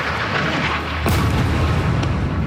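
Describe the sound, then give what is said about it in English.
An Israeli airstrike explodes on a mosque and refugee camp in Gaza: a sudden, heavy boom about midway through that rumbles on, set within continuous loud, noisy background sound. “Israeli airstrikes, like this one on a mosque and refugee camp this week, have continued regularly, with Israel”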